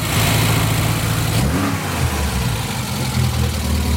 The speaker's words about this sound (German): Allerdings in einem noch älteren Auto, in einem Volvo P1800 Coupé Baujahr 64.